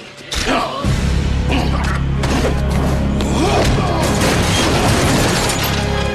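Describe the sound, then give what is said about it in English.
A heavy crash as a body is kicked backwards through the crumbling wall of a wrecked interrogation room. A sudden impact comes just after the start, followed by a sustained loud rumble of breaking, tumbling debris. “with one massive karate kick to the chest, sends him backwards through the crumbling wall of the wrecked interrogation room.”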